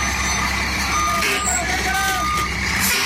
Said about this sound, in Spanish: La reversa, dele para atrás, dele. Yo le aviso, hágale.